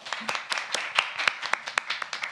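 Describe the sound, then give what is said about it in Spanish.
Audience applause, a sparse and fairly faint patter of hand claps in an uneven rhythm, a small group clapping for a couple of seconds without any voices over it. “Un aplauso, porfis.”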